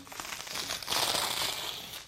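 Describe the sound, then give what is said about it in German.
Old rotten wallpaper being pulled and torn off a wall: a rough, continuous ripping and crackling that swells louder after the first second and keeps up steadily to the end. “Es macht Spaß, wie die morsche Tapete reißt und ratscht und fatscht.”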